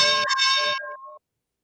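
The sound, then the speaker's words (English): A bell is rung once, giving a bright metallic ring with rich overtones that fades briefly and then cuts off abruptly. “I think we can ring the bell on Mongo and Goldberg”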